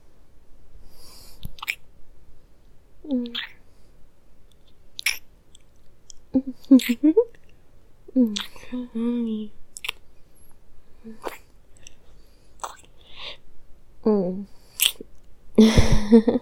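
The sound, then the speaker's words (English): Intimate kissing comes through as many soft, wet lip smacks and clicks, spaced irregularly. Faint murmured voicing sounds between them. “Thank you. I love your kisses.”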